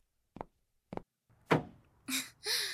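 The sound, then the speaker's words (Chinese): Car trunk lid being shut: two soft knocks, then one heavier, resonant thud as it closes, followed by brief vocal sounds. “还得是你们男人有力气，一下子就把后备箱关上了。”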